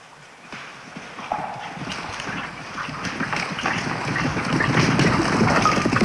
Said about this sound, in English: Several riders gallop out of the woods, coming toward him from either side of the forest.